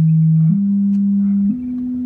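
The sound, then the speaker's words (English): An acoustic sewer pipe inspection device in Santa Barbara sends a loud, steady pure tone through a pipe. The low, humming pitch steps up slightly twice and otherwise stays flat and unbroken. “That's the sound of an acoustic sewer inspection. How it works, a device at one end of the pipe sends sound through the pipe to a receiving device at the other end.”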